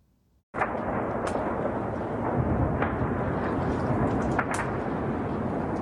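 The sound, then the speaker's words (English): Artillery shells bombarding Europe's largest nuclear power plant: a sudden loud onset that turns into a sustained, dense roar, with a few sharper bangs cutting through it. “Footage shows the Zaporizhzhia nuclear plant, Europe's largest, bombarded with shells, causing a fire.”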